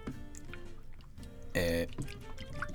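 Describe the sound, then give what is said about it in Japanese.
Soapy hands rub under running water, making faint splashing and trickling with one brief, louder splash midway, all beneath a man's voice talking throughout. “石鹸を手に置いて手でぬりぬりしてます。でこれをこう洗って、”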